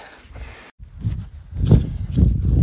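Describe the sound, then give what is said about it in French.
Footsteps crunch over stones on a rocky, poorly marked trail as a runner walks instead of running. A few heavy, low thuds and scuffs follow a brief silent gap and grow louder toward the end. “cailloux, pierres, c'est un peu galère, c'est pas un chemin qui est hyper bien balisé, du coup euh, je vais pas courir, je marche.”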